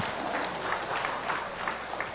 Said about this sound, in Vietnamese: Cảm ơn chị, dâng lên Chúa Mẹ một tràng pháo tay.